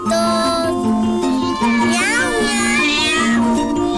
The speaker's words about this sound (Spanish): ¡Miau, miau, miau!